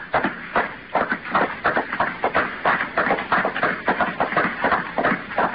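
Footsteps of a man walking away down a street from a taxi stand toward a hotel a few blocks off: many even, evenly spaced steps in a steady walking rhythm, moderately loud and unbroken.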